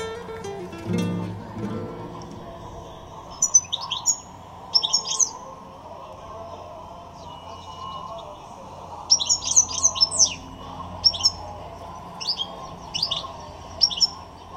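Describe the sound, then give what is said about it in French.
A goldfinch kept at home sings in several short bursts of bright, rapid twittering chirps, separated by pauses, over a low steady background hum. “Vous élevez des chardonnerets ? À la maison, on essaye. On a essayé d'enregistrer un petit peu quand il chantait.”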